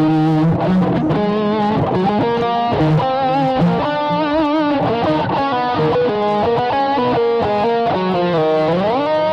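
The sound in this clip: Distorted electric guitar plays a Christmas tune with an effects unit, giving loud, sustained, gritty notes with bends and sliding pitch, continuous throughout with no talk.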